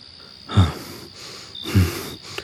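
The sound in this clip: Heavy panting of a man out of breath after running: two loud, rasping breaths about a second apart over a faint steady hiss.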